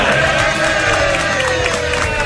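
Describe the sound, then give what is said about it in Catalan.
Spectators at a Barça football match against Paris Saint-Germain applaud and murmur half-heartedly, making a dense, steady crowd noise that stays loud and even throughout. “Per què no esteu aplaudint? Aplaudeixen, però no amb gaires ganes.”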